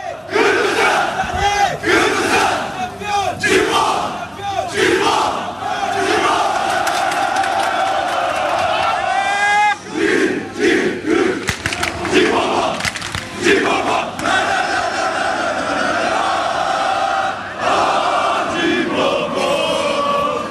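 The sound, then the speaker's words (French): Thousands of football fans in Galatasaray's stadium roar, chant and whoop to welcome Colombian striker Falcao, a loud, dense and unbroken crowd din that keeps surging throughout. “Voilà, c'était Falcao, accueilli par des milliers de personnes dans le stade justement de Galatasaray, par des milliers de personnes qui étaient là.”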